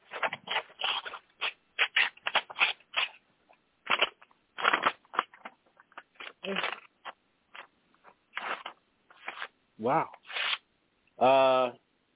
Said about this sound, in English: I do believe that there's an envelope waiting. I gotta open this damn thing.